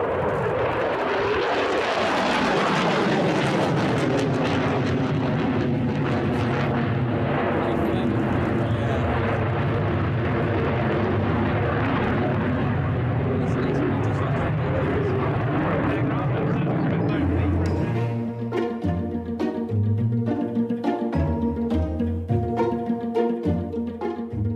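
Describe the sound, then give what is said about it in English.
A French Rafale fighter jet flying, heard as a loud, sustained roar whose pitch sweeps as the jet passes. Music with a steady beat takes over for the last few seconds. “because the noise the French fighter jets make sounds like this.”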